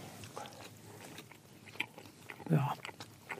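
Someone bites into a nicely browned cocoa waffle. A single crisp, crunchy bite stands out over a low background hum, and soft chewing follows.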